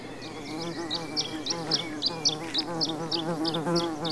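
Amplified bumblebee buzzing, a continuous droning hum with a gently wavering pitch, joined by a regular series of short, sharp high ticks running throughout, moderately loud with no talk.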